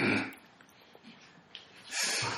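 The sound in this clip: A loud, breathy nasal snort bursts out alone, followed by a quieter lull and then a second similar blast of rough breath at the end.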